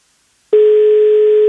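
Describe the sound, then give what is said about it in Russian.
A telephone ringback tone sounds while a caller waits for an answer. After a moment of silence, one steady, mid-pitched electronic tone starts abruptly and holds unbroken to the end. “восемь гудков. Сколько же можно ждать? Вот мы 8 гудков дали и уже хотели класть трубку”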